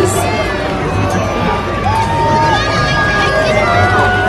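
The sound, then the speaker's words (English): A crowd boos Governor Pritzker, a loud, continuous mass of jeering voices with scattered shouts rising above the steady roar. “This is Pritzker being booed.”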